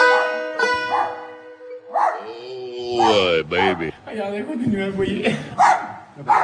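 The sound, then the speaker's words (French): A dog barking nonstop, with repeated yaps and whimpering yelps rising and falling among other loud vocal sounds throughout. “C'est le chien qui arrête pas d'aboyer.”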